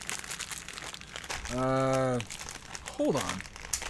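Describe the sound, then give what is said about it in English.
Crinkling of a plastic bag of Warheads sour candy being pulled open at its tear notch, a rough rustling texture running throughout, with brief voiced sounds from a person partway through. “So, just got the bag of warheads. Oh, it's got a tear tap. Look at that. 2023. Sitting here trying to open it like an idiot.”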